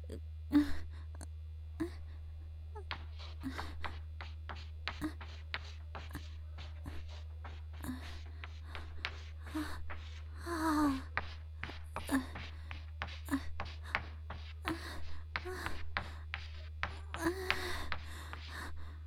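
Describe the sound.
Writing on a classroom board while students copy notes gives many faint, irregular taps and scratches over a steady low hum.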